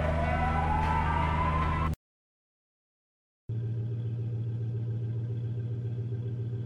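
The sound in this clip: A police car siren rises steadily in pitch over a low engine rumble and then cuts off abruptly. After a brief silence, a steady, droning vehicle engine hum takes over.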